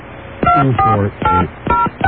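Cell phone keypad tones as a number is dialed: several short, loud beeps of different pitches in quick, slightly uneven succession, heard alone without voices.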